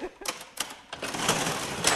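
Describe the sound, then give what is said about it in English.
Antique cash register ringing up a sale in a specialty gift shop: a few sharp mechanical clacks, then a sustained busy rattle of keys and mechanism that grows louder and stays steady to the end. “The antique cash register has rung up enough sales in the past 16 years to support Cadeau's owners”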